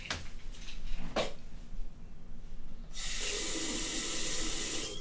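Someone taking antidepressant pills with water: a couple of short knocks, then a steady rush of running water from a tap that continues to the end.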